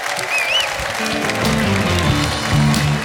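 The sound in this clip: Audience applause greeting a singer arriving on stage at a live show: steady, full clapping throughout, with a brief high whistle early on.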